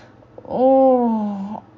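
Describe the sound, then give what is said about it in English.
A man grunting and groaning, a single fairly loud drawn-out voiced groan lasting about a second, steady in pitch and tapering off at the end. “Oh, listen to him grunting and groaning.”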